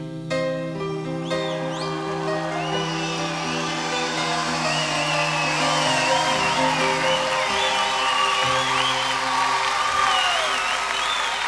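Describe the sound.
Audience applause at a live music performance: sustained clapping through the whole stretch, with high warbling sounds mixed in.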